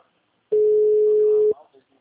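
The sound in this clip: A single steady ringback tone, about one second long, sounds on the line as someone places a phone call, then fades into quiet.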